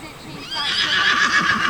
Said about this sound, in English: That's Freedom, another wild Mustang mare who wants to protect Liberty.